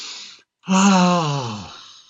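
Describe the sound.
A deep breath during a guided meditation: a short, airy inhalation, then after a brief pause a long, voiced, sighing exhale that slowly fades.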